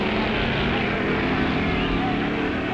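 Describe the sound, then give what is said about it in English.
A drag racing boat engine roars at full power, a dense, loud, unbroken rumble that holds steady across a few seconds. “There's Jamie Parker and his Sea Gasser. There goes his brother Phil and his A Gasser, affectionately called Grandma.”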